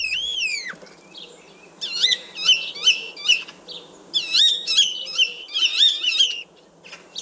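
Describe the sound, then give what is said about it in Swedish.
A common starling sings a varied run of clear, high whistles with upward and downward slides, then repeated bursts of chattering, buzzy phrases, one after another. “Men vi ska börja och lyssna på själva bara starens ljud rent här först.”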